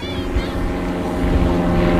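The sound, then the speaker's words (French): Small private airplane flying overhead near a beach, a steady low droning hum with buzzing harmonic tones that grows slightly louder toward the end. “Qu'est-ce que c'est, ça, comme avion? C'est des gens qui ont leur avion à eux, qui sont propriétaires de leur avion.”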